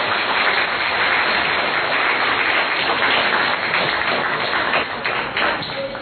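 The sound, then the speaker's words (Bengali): Audience applause welcoming guests at a Bengali community event, a dense, steady patter of many hands clapping at a constant, fairly loud level all the way through. “দর্শক শ্রোতা আসুন করতালের মাধ্যমে তাদের স্বাগত জানাই।”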